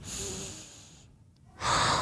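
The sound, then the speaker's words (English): A deep breath drawn in through a hissing, airy inhale, a brief pause, then a louder, forceful breath pushed out. “I took a deep breath in, and then I breathed it out.”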